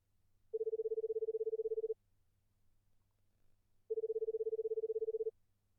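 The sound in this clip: Telephone tones as a number is called: two long, steady, warbling mid-pitched tones, each lasting over a second and separated by a pause of about two seconds, with no voices.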